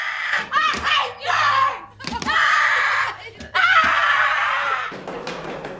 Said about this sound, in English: Ellen screams in her face, slamming her hands on the wall behind her mother